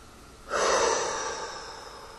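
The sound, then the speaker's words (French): A single forceful exhale through the mouth during a relaxation breathing exercise: a breathy rush of air that begins abruptly, is loudest at first, then slowly fades over well over a second, with no voice. “Nous pouvons souffler très fort si nous ressentons le besoin, ou plus lentement.”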